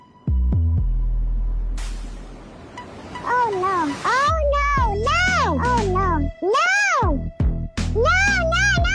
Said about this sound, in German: sie hat eben diese Mickey-Maus-Mimimi-Klänge gewählt